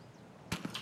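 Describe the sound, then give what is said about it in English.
Empty gun clicks in a video game as the weapon runs out of ammunition, three quick dry clicks close together after near silence, faint overall. “that was me running out of ammunition. Click.”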